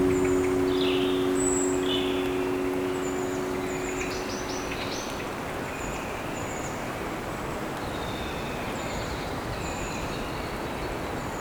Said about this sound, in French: les oiseaux gazouillent